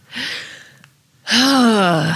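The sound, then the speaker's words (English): A person overwhelmed with emotion takes a sharp, breathy intake of breath, then after a short pause releases a long voiced sigh whose pitch falls gradually. “Is what I say whenever I think about Laura, because I have to take in breath because I'm so overwhelmed by the feelings that I get when I think of Laura H.”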